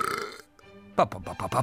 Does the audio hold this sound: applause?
no